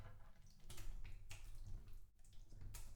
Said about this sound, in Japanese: では、体を洗っていきます。足をこちらに出していただけますか？